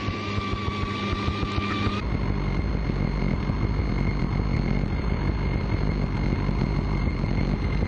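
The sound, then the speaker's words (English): A Piper Cherokee light airplane making a normal takeoff, its engine droning and then surging to a louder, full-power roar after about two seconds that holds steady. “I'm going to be heading to the south. I'm going to be doing a normal takeoff.”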